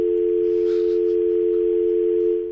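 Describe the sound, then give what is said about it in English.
A telephone dial tone buzzes, one steady, unbroken hum at constant pitch, loud and alone, trailing off slightly at the very end. “Anyone want to talk to a dial tone? She's buzzing.”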